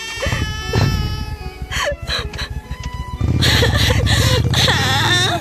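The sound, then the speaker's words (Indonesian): Crying and sobbing, first whimpers broken by gasping breaths, then a loud, sustained, wavering wail that fills the second half. “Sedih banget. Sampai banjir ini nangisnya.”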